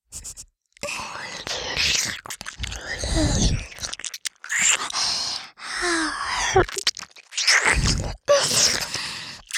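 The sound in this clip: Close, wet mouth sounds of someone nibbling on a person's ear, with crunchy, chewing-like bursts and soft breaths. They come in several clusters separated by brief pauses.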